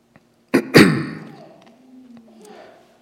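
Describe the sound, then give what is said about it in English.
Two sharp, loud coughs from a tickle in the throat, in quick succession, trailing off into fainter low sounds. “Pardon me, I have a tickle in my throat.”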